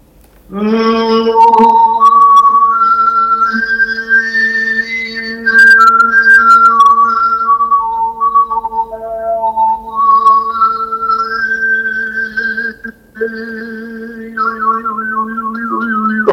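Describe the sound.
Overtone singing: a single voice holds a steady low drone while whistle-like harmonics glide up and down above it in a loud, continuous melodic line, with brief dips near the end.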